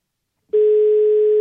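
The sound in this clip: A telephone dial tone sounds while a call is being placed. After a brief silence, a loud, steady, unbroken hum starts and holds at one even pitch to the end, with no voices.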